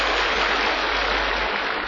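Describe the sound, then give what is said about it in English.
An audience applauds: dense, unbroken clapping at an even, fairly loud level, running steadily from start to finish. “But I'm telling you, you're applauding, but don't get too happy too soon.”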